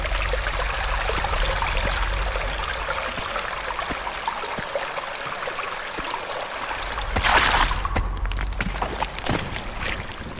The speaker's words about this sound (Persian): آب وارد تونل میشه.